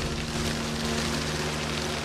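Steady rain falling on a street, a continuous even hiss of drops with a low constant hum beneath it and no voices.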